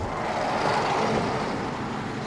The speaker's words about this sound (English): The bus drives away